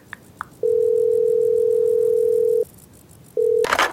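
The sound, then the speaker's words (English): A telephone dial tone sounds while a call is being dialed. A steady, even tone holds for about two seconds, falls silent, then returns briefly before a short burst of noise. “Let me dial in real quick.”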